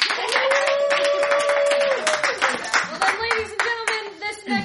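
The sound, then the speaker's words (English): Applause from the audience at a live show, with brisk, steady clapping from many hands and cheering voices rising over it throughout. “By, let's say, a round of applause.”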